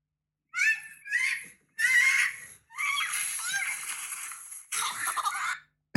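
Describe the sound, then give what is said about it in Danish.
Screams and shrieks from a sled crash on a steep snowy hill, riding an old sled: several loud bursts of high-pitched screaming voices separated by short silences. “Der bliver skrejet igennem der. Det er lyden af et styrt.”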